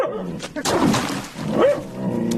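A yellow-eyed dog barks and yelps a few times in a dramatized scene, the calls rising and falling against a busy background.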